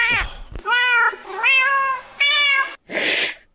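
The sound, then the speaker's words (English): An angry cat that is unhappy about a new baby in the house gives several drawn-out, wavering yowls. A short harsh hiss follows at the end, and no one talks. “you're trying to justify your argument by playing the sound effect of an angry cat that could have been hissing at anything.”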